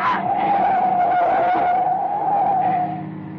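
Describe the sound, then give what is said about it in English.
Car tires squeal in a long, continuous skid as a car is run off the road at night. The loud, high screech holds steady for about three seconds over rumbling car noise. “He's trying to run us off the road.”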